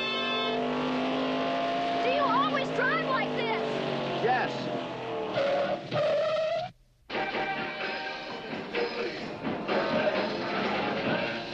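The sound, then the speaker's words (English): A car cuts in and out of traffic, its engine roaring loudly and revving in rising sweeps, with a brief break near the middle before the steady engine noise returns. “He's cutting in and out of traffic, passing everyone.”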